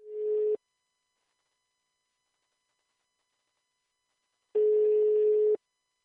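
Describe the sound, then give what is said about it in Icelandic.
Ringback tone while calling someone on the telephone: a steady, mid-pitched tone cut short at the start, then about four seconds of silence, then one full ring lasting about a second. “ég ætla að hringja hins vegar í mína mannesku og það Kristín Ír”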